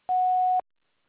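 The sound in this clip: An answering machine tone: one steady, mid-pitched electronic beep held for about half a second. It sounds alone and clear, with silence after it.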